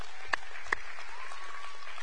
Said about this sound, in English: How about a round of applause for tithes and offerings right now?